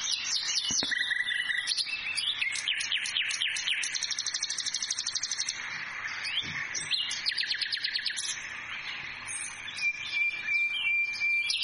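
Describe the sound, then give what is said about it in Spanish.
A nightingale sings a long, continuous stream of high, rapid chirps and trills, with quick repeated phrases tumbling over one another without pause. “¿Lo están escuchando? ¿Saben quién es? Este cantor nato es el ruiseñor.”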